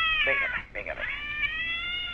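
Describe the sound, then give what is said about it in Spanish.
A cat meows in one long, drawn-out call that wavers and breaks in the middle before settling into a steady, fairly loud tone until the end. “Otra vez, el gato.”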